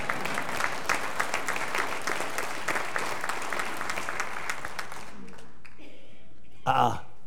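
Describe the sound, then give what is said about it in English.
Church audience clapping during a service, a dense, steady round of applause lasting about five seconds before fading out, followed by a short spoken voice at the end. “Church, I think that should be clapped for too.”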